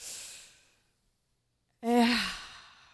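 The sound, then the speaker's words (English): A group of people take a big breath together: an airy breath that fades, a short silence, then a loud voiced collective sigh that tails off. “Let us reclaim the rebirth in our bodies as they breathe deeply the world around us. Can we have a big breath together?”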